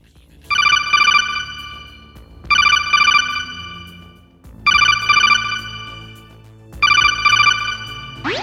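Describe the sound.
Incoming-call ringtone from a Metal Gear video game: four bright, high-pitched electronic ring bursts, each made of two quick pulses, repeating at a steady pace with short pauses between them.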